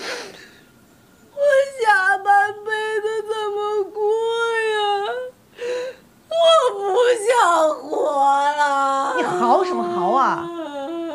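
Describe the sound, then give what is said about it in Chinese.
A woman wails and sobs loudly in long, high, wavering cries broken by short gasping pauses, in an emotional family argument scene. “你嚎什么嚎啊！”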